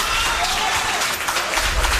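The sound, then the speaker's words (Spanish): Dense, steady applause from the audience fills a town council session, clapping continuously and evenly throughout. “lo que ha provocado aplausos entre el público asistente, que fue expulsado en ese momento de la sala por orden del alcalde.”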